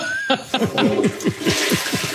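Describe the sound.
A toilet flush sound effect: loud rushing, swirling water with a rapid run of downward-sweeping gurgles repeating in quick rhythm throughout.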